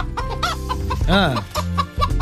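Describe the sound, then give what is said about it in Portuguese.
A hen clucks in a radio studio, giving a run of short, throaty clucks with one drawn-out squawk in the middle. “É a Gilda, a nossa galinha vidente, que vai dar o resultado do jogo Brasil-Marrocos.”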